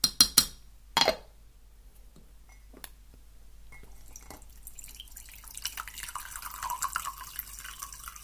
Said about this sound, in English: I think it might be time for some green tea to kind of help the creative juices flow. So I'm just gonna give this a stir.